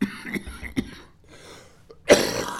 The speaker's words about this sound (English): When I cough, my eyes water and I can't see the Bible.